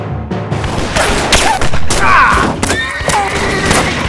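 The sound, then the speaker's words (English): A volley of rifle fire from gunmen on the ground facing mounted men: a loud, dense, continuous barrage of overlapping shots and booms with no clear gaps. “Their reply was a volley of rifle fire”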